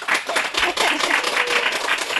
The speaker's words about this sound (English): I want to first just encourage everyone to like give her a giant round of applause because she's Ducky Doolittle